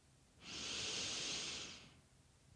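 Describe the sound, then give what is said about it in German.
A deep inhalation, a soft, airy breath drawn in steadily for about one and a half seconds with nothing else around it, ending in a brief click. “Die Idee ist, dass ihr einmal ganz tief einatmet”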